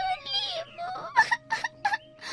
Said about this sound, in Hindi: खेलते खेलते उसे थका दिया, लेकिन लीमू नहीं दिया। लड़की तंग आकर रो पड़ी।